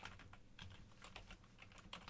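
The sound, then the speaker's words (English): Faint typing on a computer keyboard while a search query is entered, with many soft key clicks in a quick, irregular run and no talk. “let's just type in pizza, Big Bear.”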